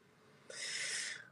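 A single big, loud breath, drawn as a steady airy hiss lasting under a second, rising abruptly and fading out gradually, with no talk over it.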